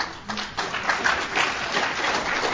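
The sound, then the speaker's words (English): An audience applauds for a man sitting in the front row. After a brief quiet start, the clapping swells into an uneven, moderate patter with small surges, and it never grows very loud. “he deserves a little bigger applause than that, I'll tell you.”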